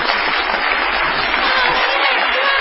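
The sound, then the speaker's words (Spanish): An audience ovation for an artist at a stage show: dense, steady applause from many hands, loud and continuous with a faint crowd murmur in it. “No menos desaforada será la ovación que tributaremos al artista antes llamado Gillespie.”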